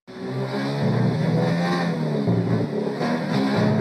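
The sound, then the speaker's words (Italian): A Formula 1 car laps the Sochi circuit in the video game F1 2019. Its loud, high-pitched engine whine rises and drops sharply through several gear changes, with no voices over it. “quello che è il più veloce giro mai registrato di un simulatore su Sochi, questo è fatto sul, 2000, su F1 2019.”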